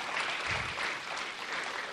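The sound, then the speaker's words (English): Applause from a church audience welcoming visiting students from Southernwood: a soft, steady patter of many hands clapping for about two seconds, with no voices. “So let's give them a hand.”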